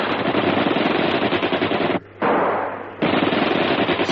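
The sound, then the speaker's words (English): Rapid machine-gun fire from several platoon sections firing across open ground: a dense, loud, continuous clatter of shots that cuts out briefly near the middle, continues more quietly, then returns at full force. “All sections, rapid fire!”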